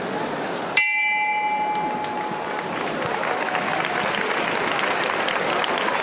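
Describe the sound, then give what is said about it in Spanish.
A single bell stroke signals the bearers of a Holy Week procession float in Jaén. It rings out as one clear, sharp strike with a long, fading tone over a steady murmur of crowd noise. “escuchemos cómo se, dan esos toques de campana para avisar a los caballeros, segundo para prepararse y al tercero pues subirán arriba.”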